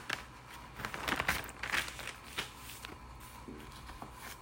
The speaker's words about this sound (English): I'm going to flip over the pages to Romans 12.